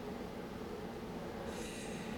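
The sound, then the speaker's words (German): Steady rumble and clatter of rail cars while tanks are loaded onto a train at a railway station, continuous and fairly loud, with a hissing layer joining in toward the end. “Was ist da draußen für ein Krach? Ach, das ist nichts. Sie waren zum Bahnhof. Sie verladen die Panzer und fahren damit zum Truppenübungsplatz.”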